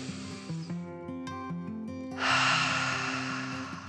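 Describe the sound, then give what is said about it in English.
A deep human breath, a loud airy rush in the second half, plays over a soft, gentle melodic tune in a calm guided meditation for children. “took a deep dragon breath in and out.”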